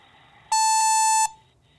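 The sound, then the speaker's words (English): A voicemail beep tone sounds once: a steady, bright electronic tone lasting under a second, loud and alone over faint background hiss, with no voices. “Leave a detailed description of your dream at the tone.”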